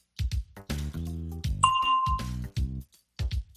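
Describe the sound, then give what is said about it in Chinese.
A single bright bell ding from a language-lesson exercise rings once with a clear, sustained tone and fades within about half a second, set among other short sounds. “Listen for the bell, then say your answer.”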